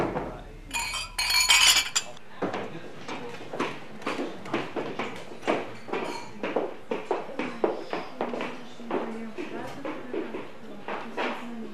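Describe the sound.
Glasses clink together in a toast at a celebratory dinner gathering. A brief cluster of bright clinks comes first, followed by continuous lively talk from several people.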